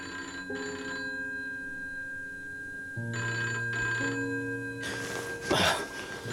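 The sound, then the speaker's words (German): A telephone rings at six in the morning in a house. Its bell trills in several repeated bursts at moderate loudness, and a burst of rustling noise follows near the end. “Um Gottes Willen. 6 Uhr. Er ruft so früh am Morgen an. Nimm schon ab, Max. Das Geräusch weckt ja das ganze Haus.”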